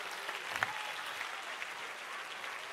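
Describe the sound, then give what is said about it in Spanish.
Faint, steady applause from a church audience during a sermon, an even patter of many hands with a few slightly louder claps standing out. “Si ese es el aplauso,”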